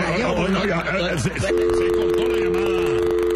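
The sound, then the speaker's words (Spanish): Telephone tone after a call is cut off during a radio call-in: a voice talks briefly, then a steady, unbroken electronic tone takes over and holds at an even level to the end. “Se cortó la llamada, qué barbaridad.”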